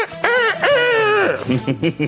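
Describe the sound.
A human voice imitates a rooster crowing: one long, drawn-out harmonic call, then a few short clipped syllables.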